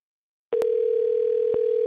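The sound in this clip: A telephone dial tone on a call attempt starts abruptly after a moment of silence and holds as a steady, unbroken hum, with a couple of faint clicks on the line.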